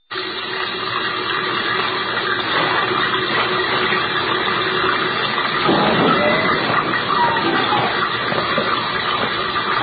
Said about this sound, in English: What's up with the sink? Somebody left it on. It's been running all day.